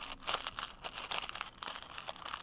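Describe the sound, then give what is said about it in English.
Jelly beans being handled and eaten make crinkly, crunchy rustling, a dense run of many soft, irregular clicks and crackles that stays quiet and steady, with no talk. “What is it about jelly beans that makes me do ASMR? I think it's just the sound that it makes”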